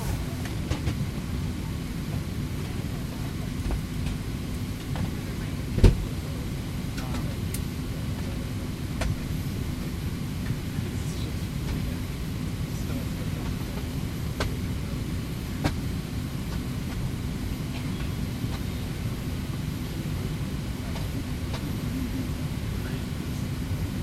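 Airliner cabin rumble on a flight from Burbank to San Francisco: a steady, low, continuous roar with a faint constant hum and one brief knock partway through.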